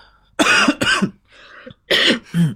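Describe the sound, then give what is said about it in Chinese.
Harsh coughing from a person ill with COVID, still coughing at this point: four loud, rough bursts in two close pairs separated by a short quieter stretch, with no talk. “此刻还在咳嗽”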